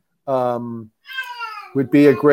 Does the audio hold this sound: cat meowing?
yes

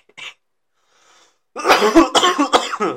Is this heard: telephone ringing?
no

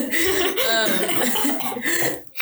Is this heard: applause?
no

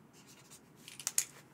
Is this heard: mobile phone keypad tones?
no

